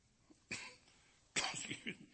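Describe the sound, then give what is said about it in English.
Coughing from a preacher in the middle of a sermon: one sharp burst, then after a pause a longer, rougher fit of a few coughs. The coughs are fairly faint and heard alone, without speech. “I'm sorry, this doggone cough.”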